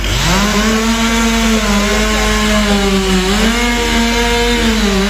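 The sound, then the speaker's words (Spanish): A loud chainsaw run by workers cutting up a large fallen tree that blocked a road. Its steady droning engine whine holds throughout, dipping briefly in pitch partway through before settling back. “Os operarios, dicía, continúan traballando cortando a leña.”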